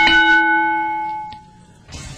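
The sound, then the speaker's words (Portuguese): A bell is struck hard once, and its bright ringing tone holds clearly before decaying away over about a second into near quiet. “Bata com força nesse sino.”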